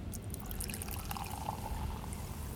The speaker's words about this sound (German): du schüttest abermals Sekt nach